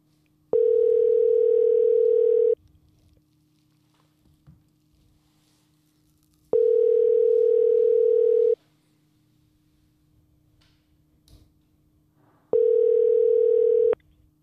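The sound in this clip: Telephone ringing tone sounds while a call is placed: three identical steady tones, each about two seconds long, spaced by regular pauses of roughly four seconds, with a faint hum in the quiet gaps and no voices.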